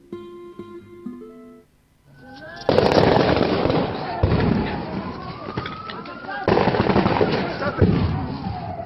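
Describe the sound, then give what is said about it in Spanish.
Gunfire from soldiers during unrest in Bolivia: loud, dense bursts of sharp cracks and rattling blasts that run on for several seconds, with voices heard in the commotion. “Miren, los soldados están usando bala.”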